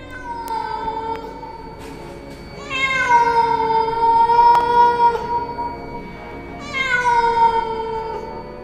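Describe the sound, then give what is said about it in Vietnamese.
A black cat meows mournfully in three long, drawn-out, wavering cries, with the later two louder than the first. No voices are heard. “Trước khi nó nhảy ra ngoài, con mèo đen quay đầu nhìn ông anh ba, kêu lên những tiếng nghe não lòng kinh khủng.”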